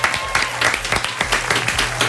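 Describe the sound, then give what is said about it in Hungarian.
Applause celebrating a truck racer's eighth European championship title: brisk, dense clapping that stays fairly loud and steady across the whole clip. “Egy nagy taps Norbinak.”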